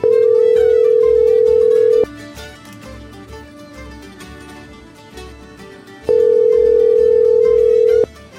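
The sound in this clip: Telephone ringing tone while calling a number, two long steady buzzing tones of about two seconds each, separated by a quiet four-second gap.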